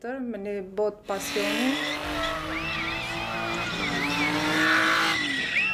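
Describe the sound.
Tires squeal as a car drifts at a drifting competition in North Macedonia, a loud, steady engine drone carrying wavering high-pitched squeals throughout, with a voice heard briefly at the start.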